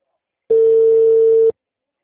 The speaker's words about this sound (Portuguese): Deixa eu ligar para ela para ver o que ela acha da proposta.